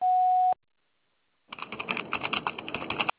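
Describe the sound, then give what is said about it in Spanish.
A voicemail prompt tone sounds before a message is recorded: one steady, mid-pitched beep lasting about half a second, then silence, then a burst of crackly, clicking line noise. “Tono, grabe su mensaje.”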